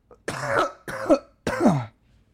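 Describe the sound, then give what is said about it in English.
A person coughs from dense smoke after taking a dab of cannabis concentrate, giving three harsh, throaty coughs spaced roughly evenly, each rough and fairly loud, ending in quiet. “Oh my god, I'm coughing from like the density of smoke.”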